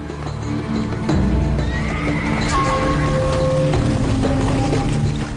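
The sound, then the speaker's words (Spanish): Horses neigh in a loud, drawn-out whinny with strong tonal harmonics that waver in pitch, set against a steady low rumbling background. “Y allí podían encontrar los legendarios caballos celestes, que el emperador Wu Di tanto deseaba”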